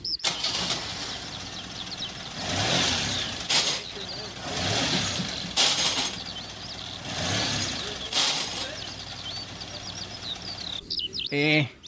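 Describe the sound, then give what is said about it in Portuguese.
A car engine revs in repeated loud surges as the driver fails to engage any gear. The vehicle has a clutch fault. “não tô conseguindo engatar nenhuma marcha. Atenção, você que precisa trocar a embreagem do seu veículo”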